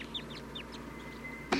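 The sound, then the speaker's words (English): A flock of birds calls from a tree: a few faint, short, high chirps repeat quickly, and a brief sharp click follows at the end. “Mainly pointed at the flock in the tree. Calling.”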